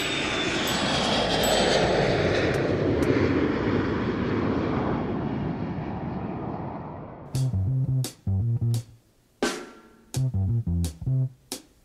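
An airplane takes off with a broad, roaring engine rush that gradually fades over several seconds, then gives way to a rhythmic musical passage of short, punchy bursts.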